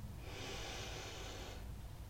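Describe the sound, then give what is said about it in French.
One deep breath drawn in during a guided breathing exercise, a soft, airy, steady intake lasting a little over a second, faint and heard on its own. “Et inspirez.”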